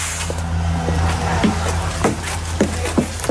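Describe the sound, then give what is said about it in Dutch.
An electric trolleybus rides between Oosterbeek and Velp, giving a steady low motor hum with intermittent sharp knocks and rattles from the vehicle body throughout. “Maar we gaan nu eerst, en dat is eigenlijk vanzelfsprekend, een ritje maken in zo'n trolleybus, ons benzineloos voertuig van vandaag.”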